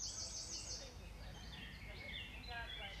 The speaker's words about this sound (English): Can hear the birds chirping.